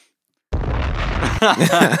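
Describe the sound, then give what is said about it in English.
A bomb explosion sound effect bursts in suddenly after a short silence, a loud, rumbling blast with a crackling tail. “why was it short? Because it wasn't that good of a bomb.”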